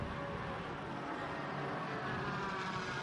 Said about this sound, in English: The difference in the sound of that big twin turbocharged V8 and the 4-litre flat 6 of the Cayman 718.